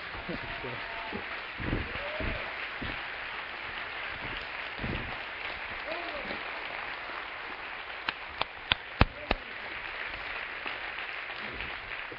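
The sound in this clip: At a church service, an audience applauds to welcome a speaker to the stage: dense, sustained clapping runs throughout, with voices mixed in and a few sharp, isolated claps standing out near the end.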